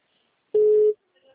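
A single steady telephone tone sounds as a call goes through. It is one clear mid-pitched beep of about half a second, loud and alone, followed by faint low noise.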